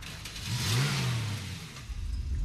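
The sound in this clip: Car engine starting and driving off, a fairly quiet low rev that rises and falls in pitch, then settles into a rougher, uneven running rumble.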